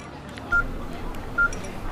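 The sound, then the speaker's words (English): Two short, high keypad beeps come from a phone as someone enters a phone number. The tones are spaced about a second apart over a faint, steady background. “Why don't you put your number in my phone?”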